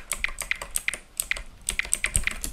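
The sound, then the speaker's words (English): Typing a cheat code on a computer keyboard to switch off cheats in a game: a quick, uneven run of many crisp key clicks, with no voices. “To turn cheats off, you just type...”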